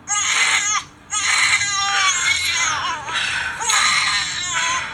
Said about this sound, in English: They did a really good job with the sound effects of the baby crying. They got that primal baby cry.